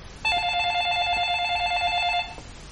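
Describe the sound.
A telephone rings indoors as someone picks up a mobile phone: one unbroken electronic ring tone lasting about two seconds, steady and fairly loud, then it stops.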